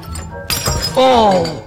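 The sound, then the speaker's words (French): A china cup breaks with a sharp, bright crash of shattering pieces, followed at once by a voice crying out. “Oh! Bah, voilà que je la casse. Oh, bah, voilà qui casse la tasse.”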